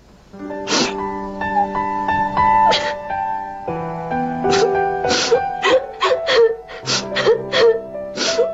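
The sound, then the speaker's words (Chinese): A woman sobs and wails, her voice breaking into high, quavering moans broken by sharp gasping breaths, growing more choppy and broken toward the end. “别哭，别哭，别哭了。”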